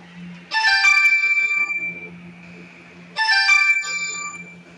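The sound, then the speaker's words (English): A mobile phone ringtone plays a bright, chiming electronic melody. It sounds twice, with a short pause between the two rings, over a faint low hum. “That was my phone ringing, I'm sorry.”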